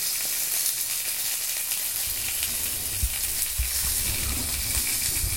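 Pork belly sizzling in a frying pan: a steady, bright crackling hiss that runs unbroken, with a few soft low knocks and pops underneath and no voices.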